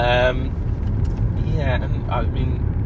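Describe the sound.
A car drives along a road past a new housing estate, giving a low, steady road rumble throughout with brief voice-like sounds over it.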